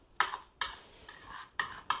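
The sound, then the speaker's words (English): A spoon stirs strawberry or blueberry tart filling in a bowl, making five soft, brief scraping strokes at an uneven pace, faint and alone. “So we're stirring this up. Only takes a second. Once it's all stirred up,”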